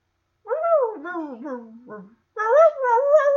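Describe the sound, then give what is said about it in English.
A man's voice imitates a dog whining and whimpering into a funnel as a sound effect: two wavering, nasal whine phrases with pitch sliding up and down, separated by a short silence. “I think it's like some man, like sound effect man, like doing like, you know, dog like whining, whimpering into like a funnel type”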